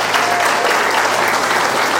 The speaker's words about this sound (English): Round of applause for the Lord.